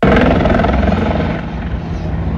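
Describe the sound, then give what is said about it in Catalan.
Firefighters' rescue helicopter from Alicante, flying to an injured climber on the Penyal d'Ifac crag in Calp, gives a loud, steady rotor and engine roar, dense and continuous, easing slightly after the first half. “Amb aquest helicòpter, els bombers d'Alacant rescataran un escalador ferit durant la pujada al penyal d'Ifà”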